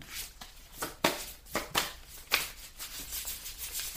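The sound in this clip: Playing cards rustle as a card is drawn from a deck during a monthly message card reading: a few soft, papery swishes and slaps, faint and with no talking.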